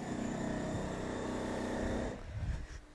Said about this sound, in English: I just want to let you know the sort of noise I have to deal with. I work shifts, so I have to sleep during the day, and this is what I have to contend with. This is the living room noise. Moving into the hallway.